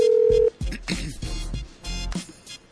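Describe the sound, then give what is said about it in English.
A telephone tone sounds as a phone is dialed: one steady, clear beep lasting about half a second, followed by a stretch of muffled, irregular sound. “Yo, that's my phone pressing button. I'm saying, like, what is that, yo? Let's see if we can get Jay Hunt. See, it's ringing.”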